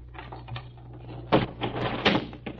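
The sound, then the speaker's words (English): A desk being opened gives a few hollow clunks and rattles, with two sharper knocks standing out among softer scraping movements. It is fairly quiet, with no voices. “In just a second, I'll open the desk.”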